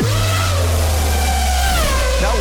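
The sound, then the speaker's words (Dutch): Racing car speeding past as a contest sound effect, a continuous buzzing engine drone whose pitch bends near the end. “Ik hoorde daar iets voorbij racen. Ik vond het nog snel gaan, maar ja. Het is ook het racegeluid. Dat gaat altijd snel, denk ik.”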